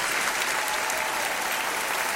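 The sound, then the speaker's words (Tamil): An audience claps its hands in praise of the Holy Spirit during a church service. The applause is dense and steady, with no break or pause across the whole clip. “பரிசுத்த ஆவியானவருக்கு கரங்களை தட்டி மகிமைப்படுத்துவோம்.”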